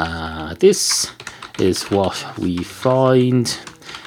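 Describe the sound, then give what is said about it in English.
Touch typing on an ultra-white computer keyboard, with quick clicking keystrokes in steady bursts while a voice speaks over the typing. “So let's see if we can type something here. Here's a sentence I used to use when I was learning to touch type.”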